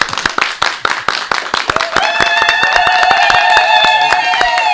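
Audience applause from a small group: sparse, sharp individual claps at a loose rhythm, then a sustained high, wavering tone joins midway while the clapping continues more densely underneath.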